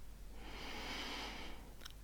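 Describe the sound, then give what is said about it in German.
A single long, soft breath taken during a guided relaxation exercise: a faint, airy rush that swells and fades over about a second and a half, heard alone. “Atme mal tief durch.”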